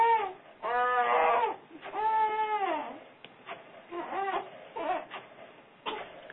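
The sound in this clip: A baby girl babbling and fussing in happy, talkative vocalizing: drawn-out wavering cries and coos alternate with shorter bursts of chatter, at moderate loudness with brief pauses.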